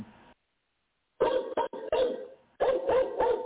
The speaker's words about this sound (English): That was a dog, and I don't know why y'all hear the dog and y'all want to hear me. Yeah, we can hear the dog loud and clear.